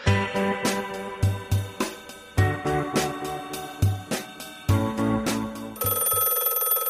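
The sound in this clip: A telephone bell rings in a steady run of repeated bright metallic strikes, grouped into bursts with short gaps between them, fairly loud and alone with no talk, ending on a sustained tone.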